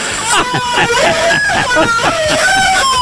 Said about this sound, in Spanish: Ay, qué vergüenza ese grito.